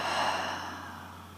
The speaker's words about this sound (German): einen tiefen Atemzug durch die Nase und atme vollständig aus durch den Mund.